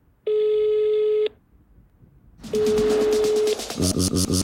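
Telephone line tones: a steady electronic tone holds for about a second and stops, then after a pause a similar tone returns with rapid, busy beeping pulses layered over it, loud and with no voices.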